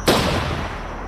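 A single pistol gunshot: one sudden, loud crack that trails off into a long, fading rumble, with no voices.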